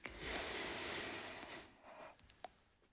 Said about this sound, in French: Une dernière. On inspire.